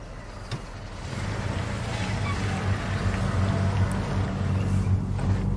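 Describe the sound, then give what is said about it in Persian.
A vehicle's low engine rumble as a car arrives, steady and growing slightly louder over a few seconds, with a faint hiss on top. “اینا دیگه کیه؟ نمیدونم. ممکنه پلیس باشن. بعید میدونم. بچه ها کسی به این خودرو مشرف هست؟”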